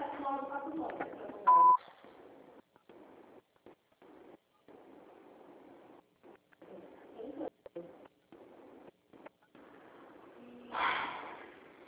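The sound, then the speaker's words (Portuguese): A Portuguese-language voicemail system sounds a single short, steady beep tone, loud against the quiet line, followed by faint, halting speech. “Após o sinal, grave.”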